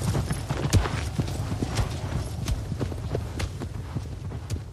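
Horse hooves clip-clop steadily as a horse is ridden across open landscape in a video game, a quick, even rhythm of many hoofbeats at a constant moderate loudness, with no music behind it.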